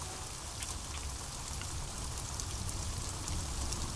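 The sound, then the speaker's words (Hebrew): Steady rain hisses evenly, with scattered brighter drop taps scattered through it, moderately loud and alone with no voices. “יש פה קצת גשם, גשם וחליל.”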